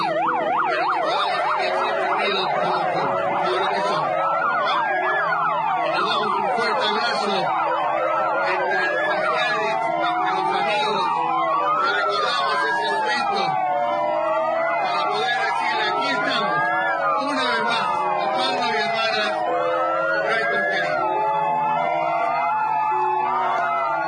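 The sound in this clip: Several sirens wail together at a commemoration of a 2004 fire, their rising and falling sweeps overlapping in a loud, continuous chorus that holds steady for the whole stretch.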